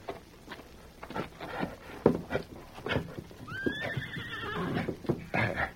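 A saddled horse, with a rope tied to the saddle horn for pulling a log, gives one short, high whinny. Quiet hoof clops and shuffling surround it, all fairly faint.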